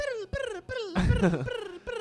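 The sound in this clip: A voice imitates a guitar solo, singing several short phrases with gliding, falling pitch and a rougher, growled burst in the middle.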